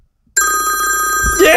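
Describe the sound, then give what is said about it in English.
A telephone rings in the background of a studio: a steady, bright electronic ring starts after a short silence and continues to the end, with a voice briefly joining near the close. “pushing buttons, answering the phones”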